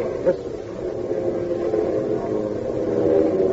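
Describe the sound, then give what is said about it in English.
A radio drama sound effect of hundreds of Heinkel bombers diving to attack Russian troops. A steady, low, droning engine hum continues throughout without talk and swells slightly louder toward the end. “Listen. They begin to bomb.”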